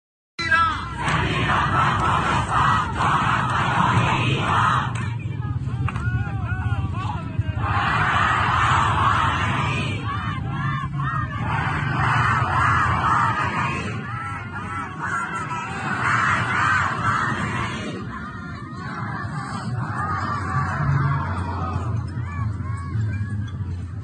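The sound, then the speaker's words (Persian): A large crowd in Semirom chants slogans together, a loud, continuous roar of many voices that swells and eases in repeated rhythmic surges. “مردم سمیروم فریاد میزنن از سمیروم تا کردستان جانم فدای ایران، بعد هم با یک جمعیت انبوه، اون هم در بلنگو”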